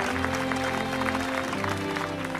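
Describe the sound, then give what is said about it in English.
A group applauds outside a large church at a wedding as the bride and groom emerge: dense, continuous clapping that stays even throughout, with steady low tones running underneath. “Outside a large church, a group applauds as Corky and Russo emerge.”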